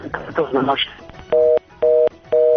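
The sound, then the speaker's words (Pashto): A phone call drops: after a voice on the line, three evenly spaced, steady disconnect-tone beeps sound loudly. “خورجان ډېره مننه د ټېلیفون کولو مو خرابته هم کټ شوه”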